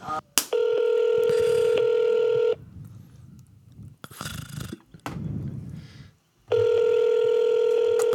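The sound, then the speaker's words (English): Telephone line tones: two long, steady electronic tones, one at the start and one at the end, separated by a few seconds of muffled noise and low rumbling sounds. “I'll pick up the phone.”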